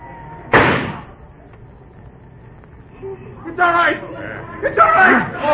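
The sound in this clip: A single sharp, loud gunshot in a radio drama, a sudden crack that decays within half a second, followed by a quiet pause and then voices.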